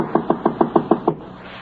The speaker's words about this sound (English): He knocks on the door. There is no answer. After a wait, he knocks again.